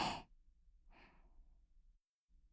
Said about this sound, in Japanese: 深呼吸をして体を落ち着かせましょうか。はい、吸って